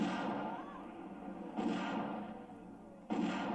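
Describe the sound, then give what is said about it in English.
Three pistol gunshots from the film Zardoz, evenly spaced, each a hard blast with a long fading tail. “Bam! Oh, sugar. I'm mildly annoyed by this pistol.”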